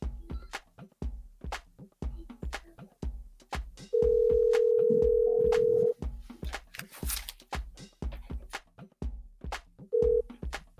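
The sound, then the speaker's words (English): Telephone tones as a call-in talk show host places a call to the next caller: a steady tone lasts about two seconds, then a brief repeat follows near the end, over a continuous rhythmic thumping beat. “So we're going to call our next caller. We are calling right now.”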